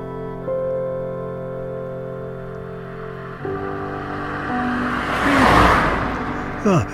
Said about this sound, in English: I'll go and check me monitors for cars. Red, maybe a Citroen Berlingo, could be a Pergo Rascal.